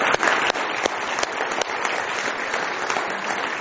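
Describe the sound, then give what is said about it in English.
Audience applauding visitors at an evening church service, a steady, dense patter of many hands clapping, fairly loud and continuous throughout without any speech. “Give our visitors one more hand tonight, if you would.”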